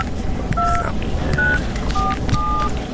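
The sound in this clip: Telephone keypad tones dial a number, four short, steady, pitched beeps in an uneven rhythm over a low, noisy background.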